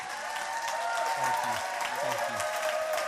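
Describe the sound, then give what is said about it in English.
Steady, dense applause from a church audience standing to welcome a guest speaker, continuing without pause throughout, with faint voices in the mix. “So let's just welcome him up here this morning. Let's stand and give him a hand.”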